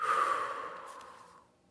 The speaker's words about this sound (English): Breathe in. Release. Breathe in. Release.